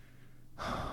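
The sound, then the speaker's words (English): Breathing during a relaxation moment: a quiet breath is followed by a sudden, fuller airy breath that swells in loudness halfway through. “So just breathe in and out”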